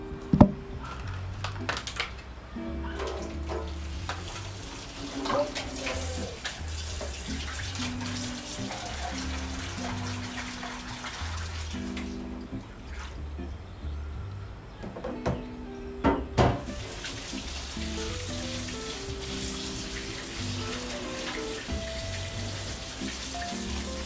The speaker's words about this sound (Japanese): まずブルーベリーとリンゴをとレモンを洗う